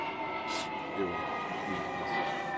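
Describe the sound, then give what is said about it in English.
An airplane flying overhead, likened to a bomber, makes a steady droning roar with a low rumble and sustained tonal hum, while faint voices come and go. “What was that? That's a plane? Fuck. That'd be loud. That sound like a bomber.”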